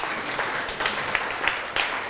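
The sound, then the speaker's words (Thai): A classroom of pupils applauds a classmate after a class presentation of a traditional khon dance performance, a short, fairly soft patter of clapping with a few sharper claps standing out. “นั่งลงได้ครับปรบมือให้เพื่อน”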